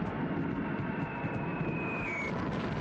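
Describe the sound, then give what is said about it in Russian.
Enemy aircraft flying in as a large group over a river crossing: a dense, steady roaring drone, with a high whine that slowly falls in pitch. “На переправу заходит большая группа вражеских самолетов.”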